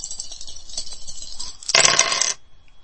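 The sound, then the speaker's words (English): Dice roll in a video dice game: one brief, bright metallic clatter bursts out after faint tonal game sounds, then cuts off sharply. “Hold dice 1, hold dice 2, hold dice 3, hold dice 5. Second roll.”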